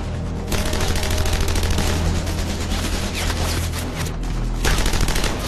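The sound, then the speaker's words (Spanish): Rifle and machine-gun fire from German troops defending the Rhine in a World War II battle: a dense, continuous fusillade of rapid, loud shots that runs without a break. “Mientras sus proyectiles explotan por todas partes. Los alemanes abren fuego también con rifles y ametralladoras.”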